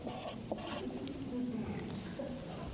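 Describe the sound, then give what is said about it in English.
Faint scratching of a little red Sharpie pen writing on a post-it note, soft, light strokes under a low background hiss. “So I'm going to write down 11:20 on my post-it note.”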